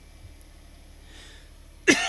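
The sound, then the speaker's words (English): A single sudden cough bursts out sharply at the very end, after a stretch of near silence. “Excuse me. Cough hit me real fast.”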